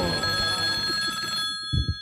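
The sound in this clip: A telephone rings with an incoming call, a steady bright electronic ring that holds for over a second and then cuts off, leaving a couple of low thumps.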